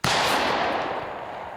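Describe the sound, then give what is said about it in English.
A single gunshot: one sharp, loud blast with a sudden onset, followed by a broad, rushing tail that fades slowly, with no voices. “I gotta shoot him. Here we go.”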